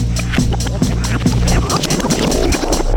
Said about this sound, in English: Let's take a spin through Joe and John's Rolodex.